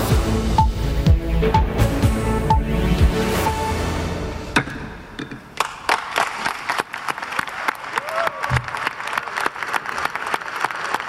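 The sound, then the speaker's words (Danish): Applause at the COP29 climate summit in Baku, Azerbaijan, after late-night negotiations ended in agreement: dense, loud clapping for several seconds, then thinning into scattered, sharp individual claps that continue to the end. “vi starter med klapsalver ved klimatopmødet i klimatopmødet COP29 i Baku i Azerbaijan.”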